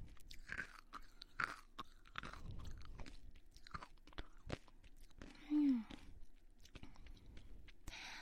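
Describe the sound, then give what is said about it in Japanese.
Crunchy chewing of a sweet snack, with many faint, crisp crunches in an irregular rhythm as the food is bitten and broken down. “カリカリカリいい音しますね。”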